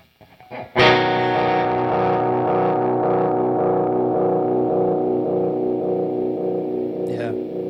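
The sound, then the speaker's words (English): A delay effect set to 600 milliseconds, with its feedback boosted and a little mix added. A sharp onset gives way to repeats that pile into a sustained, distorted, lo-fi tone, which holds loud for about seven seconds before a brief scrape near the end. “I'll boost the feedback and mix a little bit. So this will be 600 milliseconds. So you can hear it really, it's distorting, basically. Like, it's really losing a lot of fidelity.”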